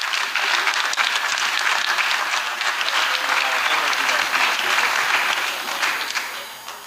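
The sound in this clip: Enthusiastic theatre audience applause greets a performer and novelist stepping onto the stage at an evening show at the Liberty Theatre. The clapping is loud, dense and sustained, then tapers slightly at the very end.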